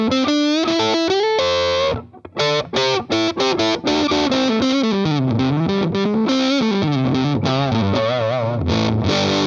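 Gritty electric guitar through a distortion pedal on symmetric clipping, played on the neck pickup in a heavy blues style. Loud sustained notes with bends and a few quick choppy stabs, played alone.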